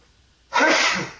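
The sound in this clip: A single sharp sneeze bursts out of near silence, loud and breathy, then trails off over about half a second with no voices around it.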